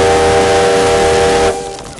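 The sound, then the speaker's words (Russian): Steam train whistle as the locomotive pulls away, a loud, steady sustained tone held for about a second and a half before cutting off abruptly, leaving a fainter rumble. “Поезд набирает ход.”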